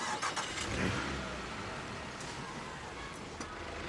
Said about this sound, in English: Joe watches Louise drive away.